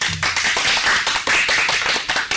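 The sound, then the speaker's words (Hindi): Hearty clapping from an audience at a children's quiz show rewarding a correct answer: many hands beating in a busy, uneven patter that stays loud throughout, with slight swells and dips. “बिल्कुल सही, जोरदार तालियां।”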